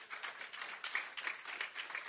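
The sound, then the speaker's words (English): An audience at an evening bilingual church service claps together, producing a soft, dense, continuous patter of many hands at fairly even strength with no talk over it. “Everybody clapping except the young people.”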